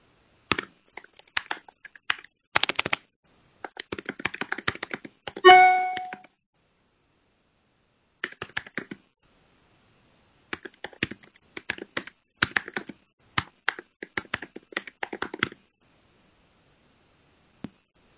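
Computer keyboard typing as a written response is composed: irregular bursts of quick, light keystrokes separated by short pauses, with a brief ringing chime partway through.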